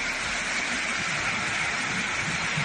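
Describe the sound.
Heavy rain pours down during an afternoon storm over towns in Castilla-La Mancha, a dense, steady hiss that holds at one even level throughout with no voices.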